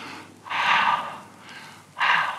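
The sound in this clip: A man breathing in and out during a talk on breathing: two loud, airy, rushing breaths with a quieter stretch between, heard alone without speech.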